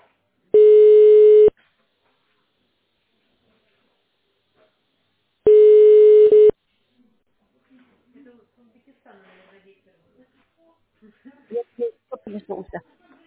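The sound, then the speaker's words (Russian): Telephone line tone while a call is transferred to an operator: two buzzy, steady one-second beeps separated by several seconds of silence, followed by faint, quiet talk. “Просьба, оставайтесь на линии. Перевожу вас на оператора.”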